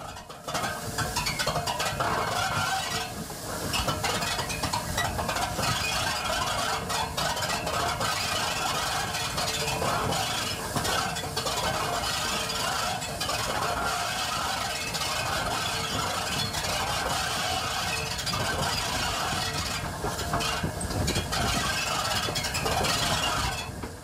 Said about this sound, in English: sets the train in motion again, and its giant wheels begin to turn, slowly gaining traction on the rails.